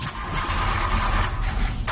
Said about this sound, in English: Car won't start on a work morning.